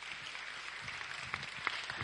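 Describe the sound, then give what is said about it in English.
An audience gives a round of applause, a soft and steady wash of many hands clapping with a few sharper claps standing out. “Should we give me another round of applause?”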